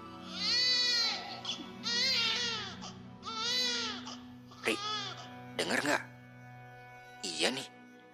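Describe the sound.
An infant crying at night at a mountain campsite on Mount Ciremai: three long, high, wavering wails in a row, followed by a few shorter, sharper cries with pauses between them over a low hum.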